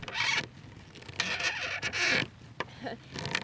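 A screwdriver drives two screws into a windsurf board fin, producing faint bursts of scraping and squeaky rasping in uneven strokes with short pauses between them.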